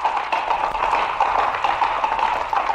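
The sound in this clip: Galloping horse hooves clatter on the ground in a fast, continuous run of sharp hoofbeats that stay evenly loud throughout.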